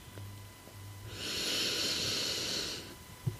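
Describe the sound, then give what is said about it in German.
A deep breath drawn in during a guided relaxation exercise, heard as one long, steady, airy hiss of about two seconds. It stands alone over a faint low hum, with no talk. “Und noch einmal einatmen,”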